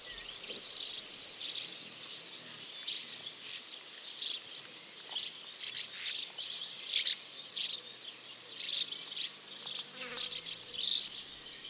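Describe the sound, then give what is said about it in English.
A colony of feeding birds keeps up constant chattering calls: many faint, short, high chirps in irregular bursts over a soft, steady buzzing background. “when they're feeding, they make this constant chattering kind of call. So maybe we'll hear that now and people will know what to listen out for.”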